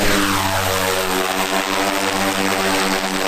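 A propeller aircraft engine drones as the plane takes off over a dense forest nature reserve in Heilongjiang. The hum is loud and continuous, with layered low tones and no pauses or breaks.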